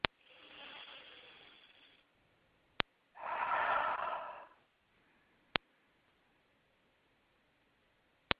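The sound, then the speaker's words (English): A slow exhaled breath, preceded by a softer breath drawn in. The release is louder and breathy, lasting just over a second, with a few sharp faint clicks scattered through the quiet. “then we're going to release a breath”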